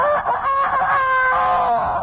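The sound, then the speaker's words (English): A rooster crows as a station identification signal: one long, loud, ringing cock-a-doodle-doo held steady for about two seconds, heard alone. “you'll hear a rooster crow, yeah, and you'll know what station you're listening to.”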